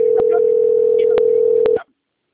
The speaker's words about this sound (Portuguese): Tá chamando ainda.